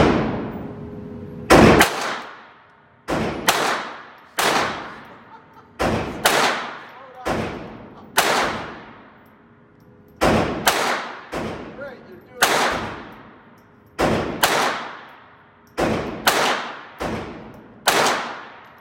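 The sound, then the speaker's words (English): Gunshots fired at a shooting range target: many sharp, loud cracks, each with a short decaying tail, come in a steady, evenly paced string with occasional quick doubles. “When you're ready to shoot, you go ahead.”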